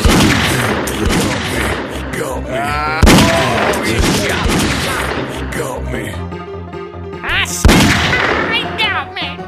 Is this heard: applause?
no